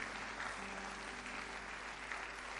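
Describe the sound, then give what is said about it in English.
Faint, steady hand clapping from a church audience during a sermon, a soft continuous patter with no clear breaks, holding at a low, even level throughout. “If you are clapping your hands, clap it well.”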